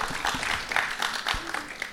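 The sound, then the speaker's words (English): Applause from a group, with steady, scattered clapping that stays at an even loudness throughout. “Okay, some applause.”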